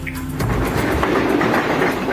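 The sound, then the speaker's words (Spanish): A train passes on the rails with a loud, steady rumble. Rhythmic clickety-clack of wheels runs over the tracks throughout, and no voices are heard. “Ahí está el tren.”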